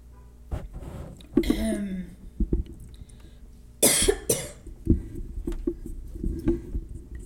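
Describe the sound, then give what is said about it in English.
A few harsh, breathy coughs burst out, the loudest near the middle as a quick pair. Quieter rustling and faint shuffling sounds surround them. “I'm sorry, I pressed the wrong button. I didn't mean for you guys to hear me cough.”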